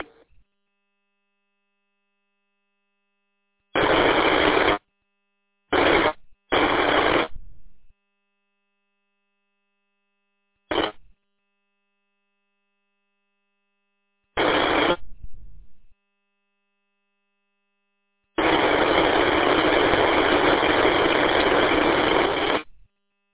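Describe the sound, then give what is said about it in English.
Harsh bursts of static break up an unreadable radio transmission. Six separate hissing bursts of varying length cut in and out of silence, the last one long and sustained, with a faint steady tone beneath. “993-793 if that's you transmitting all static there. No, nothing, just all static.”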